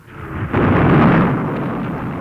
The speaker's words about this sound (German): Heilige Mutter Gottes, war das eine Bombe? Keine Bombe, Madame. Das sind die Abwehrbatterien beim Bahnhof Salazar.